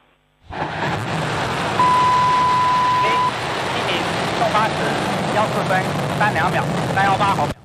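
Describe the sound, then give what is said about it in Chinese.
A Long March 7 Y-11 carrier rocket ignites and lifts off. A loud, broad roar starts suddenly and holds steady, with a level tone sounding for a second or so and a voice speaking over the later part. “8时14分，长征7号遥11运载火箭点火起飞。”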